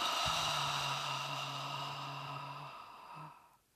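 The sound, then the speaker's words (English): An audible exhale through the mouth during a guided breathing exercise: a long breathy rush that begins strong and fades gradually over a few seconds, with a faint low voiced hum beneath it. “Inhale. Audible exhale.”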